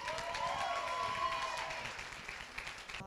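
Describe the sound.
Audience applause greets a speaker at a conference: a steady wash of clapping, fairly quiet, easing slightly toward the end.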